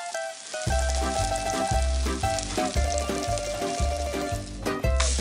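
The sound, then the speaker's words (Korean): Clam and chive flour batter pan-fries until golden, giving a steady bright sizzle heard under a rhythmic musical backing with repeated low beats. “Clam and chives are mixed into a flour batter, then pan-fried until golden brown.”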